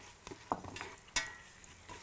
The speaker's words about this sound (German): Wir rösten die Gewürze jetzt noch mit den Zwiebeln hier an.